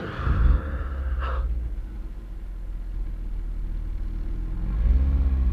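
A car drives off: a low, steady engine rumble, with a brief louder burst early on and another swell near the end, and no talking over it.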